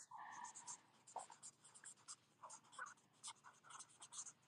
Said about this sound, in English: I hear you scribbling away, girl.